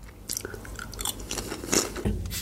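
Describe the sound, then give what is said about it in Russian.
Loud crunching and chewing of crisps, picked up by an opponent's accidentally open microphone during an online game, with a run of irregular crisp bites and wet mastication at fairly even loudness. “кто-то чипсы жрет на полную громкость и... АСМР.”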